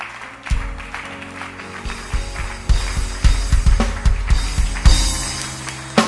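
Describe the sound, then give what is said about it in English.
A church audience claps during a service in a loose, uneven rhythm, with loud sharp claps and deep thuds that build in intensity over six seconds. “Keep clapping for them. Don't stop clapping.”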